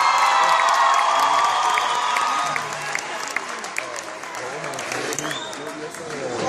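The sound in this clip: Applause from an audience at a live music event, with scattered cheers and whoops. The clapping is loud and dense at first, then eases into a steadier, softer patter that lasts to the end.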